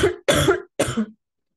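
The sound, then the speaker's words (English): Harsh, wet coughing from one person, three separate bursts: a short first cough followed by two longer, rougher ones, each loud and heard alone with brief silences between them. “Wow, that was an ungodly cough.”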